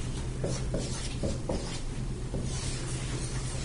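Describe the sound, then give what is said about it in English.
A marker draws a diagram of circles on a board, making faint, dry scratchy strokes. A few short squeaks come in an irregular rhythm over quiet background hiss. “I'm drawing on the board our friendly diagram.”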